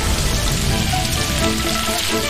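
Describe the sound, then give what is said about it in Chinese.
Goose meat sizzles in a wok with rice wine, salt, sugar, MSG and dark soy sauce, giving a steady, loud crackling hiss that runs throughout with no talk. “再将盐、糖、味精打底，老抽上色，倒入米酒后，鹅肉便在锅中翻腾入味儿。”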